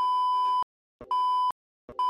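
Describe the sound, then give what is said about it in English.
Censor bleeps of a steady high tone cover a spoken name. Three bleeps come in a row, the last cut short, with brief clipped sounds between them. “I'll beep his name out.”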